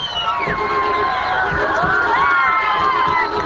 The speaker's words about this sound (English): Then the jubilation, less welcoming the new militia as celebrating the end of a hated regime.